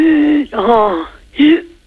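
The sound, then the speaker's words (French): A voice imitates a donkey braying for a child, as part of a French animal-sounds game. It makes three loud, drawn-out voiced calls that alternate between a held low tone and a rougher, wavering middle call. “Et l'âne, il fait comment? Et l'âne? Oui. Comment que ça fait un âne? Si, ça fait...”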